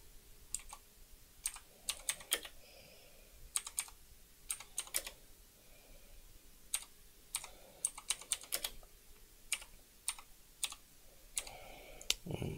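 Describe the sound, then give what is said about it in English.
Light clicking of typing on a computer keyboard, with many quick keystrokes in irregular clusters and pauses. The sound is soft and steady, with no talk. “Let me just type this in. I have to zoom in so I can see what I'm doing.”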